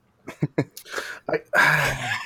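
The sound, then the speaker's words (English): A person does a deliberate, exaggerated snort: a few short breathy bursts lead into a longer, loud, noisy nasal blast that holds for most of a second. “I'm going to snort. It's going to happen. I'm going to do an on audio snort.”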